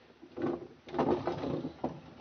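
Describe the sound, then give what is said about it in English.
A window is forced open, giving a few muffled bursts of scraping and knocking, one longer grinding stretch in the middle and a short final knock, with no talking. “Have to try a window, then.”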